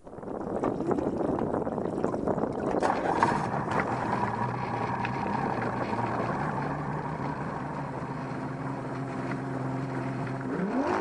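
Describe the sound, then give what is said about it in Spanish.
A motorboat engine accelerates on water with a continuous loud, rough droning roar and an underlying hum that rises slightly in pitch near the end. “¿Qué pasa cuando el timonel acelera y la lancha va cada vez más rápido?”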